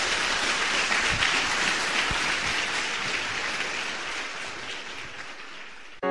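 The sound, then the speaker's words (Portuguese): Loud, sustained applause from a church audience during a worship service, a dense unbroken wash of clapping that holds steady for about six seconds and then cuts off abruptly at the end. “Vamos aplaudir nosso Senhor bem forte.”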